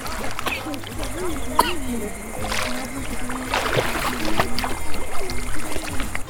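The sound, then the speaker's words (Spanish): Splashing water from a person swimming and turning in a big loop, with a few sharp splashes breaking through a steady watery wash and a voice sounding faintly underneath. “Voy a nadar dando una vueltelota.”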